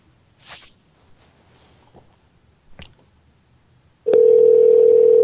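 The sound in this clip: A telephone line plays the tone for an invalid phone number: a loud, steady, unbroken mid-pitched hum that starts abruptly after a few faint clicks and runs to the end.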